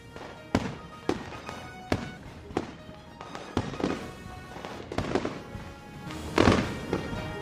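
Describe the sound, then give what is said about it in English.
TV camera eyes exploding in sparks and smoke make many sharp bangs and crackling pops at irregular intervals. A denser, louder burst comes near the end. “The TV camera eyes both explode in sparks and smoke.”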